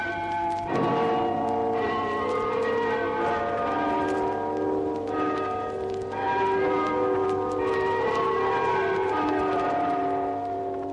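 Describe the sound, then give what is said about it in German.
Tower bells ring out a tune from a bell tower on the anniversary of the October Revolution. Sustained, layered metallic tones overlap and chime a melody at a steady, fairly loud level throughout, with no talking. “Vom Glockenturm tönt zum Jahrestag der Oktoberrevolution die Internationale.”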